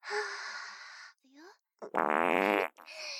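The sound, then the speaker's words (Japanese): A fart: a loud, buzzing, rippling blast lasting under a second, preceded by soft breathy hissing and a short low squeak, then followed by more gentle hiss. “おなら臭いですよね。とてもとっても臭いですよね。”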